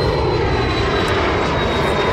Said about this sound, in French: C'est un jet.